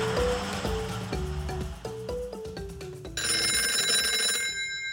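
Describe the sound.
A telephone rings for an incoming call, bright, sustained electronic ringing tones sounding over a rhythmic run of melodic musical notes.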